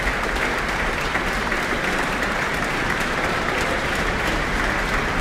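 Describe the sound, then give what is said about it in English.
Applause from a concert audience as a flute soloist returns to the stage after an orchestral performance, a dense, even clatter of many hands clapping that holds steady and strong throughout. “is back on stage now, basking in the applause.”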